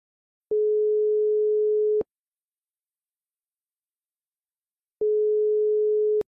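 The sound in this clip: Telephone line tone as a caller is connected: two long, steady single-pitch tones, each about one and a half seconds, separated by a silent gap of about three seconds.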